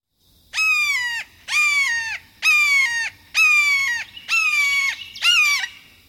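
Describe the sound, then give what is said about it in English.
A red-shouldered hawk calls six times in a steady rhythm. Each loud, clear, high scream is about half a second long and drops in pitch at the end, with quiet gaps between the calls. “you may hear a majestic red-shouldered hawk soaring overhead. They sound like this.”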